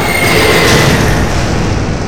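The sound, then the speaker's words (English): A loud, rumbling explosion as a fighter ship is shot down and destroyed, a dense, booming roar that stays heavy across the whole moment. “In the cockpit, Kimberly aims her targeting hair at two fighters ahead and fires, destroying one,”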